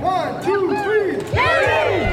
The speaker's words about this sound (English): All right, on the count of three, I want everyone to say, yay!